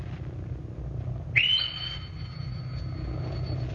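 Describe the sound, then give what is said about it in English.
A petty officer's shrill pipe call comes over a ship's loudspeaker. A high whistle slides upward and then holds a thin, steady tone for about two seconds above a constant low rumble. “The petty officer beside the loudspeaker hanging on the bulkhead switched on and piped shrilly. The sound of his call audible in every part of the ship.”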